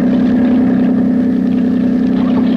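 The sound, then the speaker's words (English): Deep, steady engine drone of a big motorboat on the water, holding loud and even throughout with a buzzing, low-pitched hum. “Oh, Jack, watch out. There's a big motorboat coming this way. She'll miss us. Watch out for a wash. It'll rock us a bit.”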